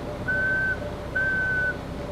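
A broken forklift (tow motor) whines without moving: a high, steady whining tone in two long pulses, with a third starting at the end, over a constant low machine hum.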